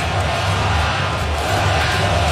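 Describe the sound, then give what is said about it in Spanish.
A baseball crowd chants for the Sox, heard as a steady, dense wash of many voices at moderate loudness. “Escuchen al público, let's go Sox, let's go Sox.”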